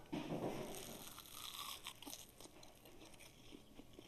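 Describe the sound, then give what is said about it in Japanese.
Crisp crunching as someone bites into home-fried sweet-vinegar pickled rakkyo with pork and doubanjiang. A loud, dense crunch comes at the start, then softer, irregular chewing crunches continue. No talk. “ちょっといただきたいと思いますあ自分で揚げたんですけどちなみに美味しそうに揚がってます”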